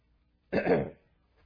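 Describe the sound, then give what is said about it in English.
A single short throat clearing, one rough, breathy rasp of about half a second, fairly faint and heard alone with no talk. “I hope the clearing of my throat is not a distraction to you, but we live in Florida.”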